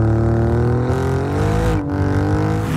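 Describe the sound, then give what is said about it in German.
An Alfa Romeo car engine revs loudly and continuously, its rich harmonic drone holding steady, then its pitch climbs slightly before briefly dipping and recovering near the end. “Der Alfa Romeo Sound.”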